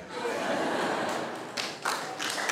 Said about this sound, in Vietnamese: Vỗ tay là sao kìa.